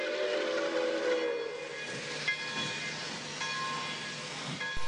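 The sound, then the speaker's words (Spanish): A train rolls into a town, a steady rumble of wheels and cars with thin, sustained whistle tones sounding intermittently over it. “puntualmente a las 8 cada miércoles el tren venía entrando al pueblo.”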